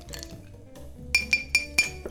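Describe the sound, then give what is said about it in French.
A spoon clinks against a glass while stirring sugar and pressed lime at the bottom for a crushed-ice mint and rum cocktail. Softer taps lead into four sharp, bright, ringing clinks in a fairly even rhythm. “D'abord, on verse le sucre au fond du verre. On presse un morceau de citron et on mélange.”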